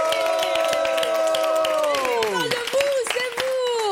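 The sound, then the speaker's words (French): Live audience clapping and cheering at an evening radio show, brisk applause under loud, drawn-out vocal whoops that slide downward in pitch, followed by shorter shouts. “On applaudit aussi avec nous ce soir. On a la présence d'un merveilleux public.”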